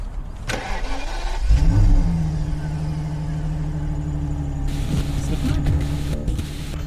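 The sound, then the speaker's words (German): A car engine starts, then settles into a steady mid-pitched drone as the car climbs narrow mountain switchbacks near Limone. A few clatters and knocks come in toward the end. “Ich fahre die engen Serpentinen von Limone sur hoch.”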